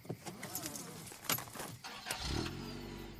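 A car starts and pulls away as people leave in it. Jangling keys and clicks come first, then a steady low engine hum builds through the last second.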